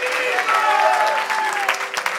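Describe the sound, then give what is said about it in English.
Hand clapping from a church audience during a service, a dense, steady patter of claps that fills the whole moment without pause, with a faint sustained tone running beneath it. “Somebody just clap your hands for a moment and shout, thank you, Jesus.”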